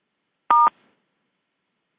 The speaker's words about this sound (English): To stop conference recording, press 1.